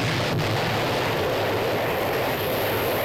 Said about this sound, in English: Well, your missile did indeed blow up, I'll give you that, but it missed the target.